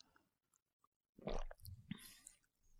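Someone faintly sips freshly pressed green vegetable juice from a new juicer. There are a few soft, wet sipping and mouth sounds after a near-silent start, with no speech.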